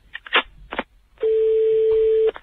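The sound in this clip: An outgoing telephone call: a few short dialing beeps, then one steady, low, continuous ringback tone that lasts about a second before it cuts off.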